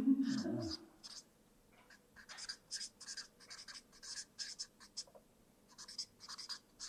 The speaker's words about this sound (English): forgive my writing, I'll tell you what the words are.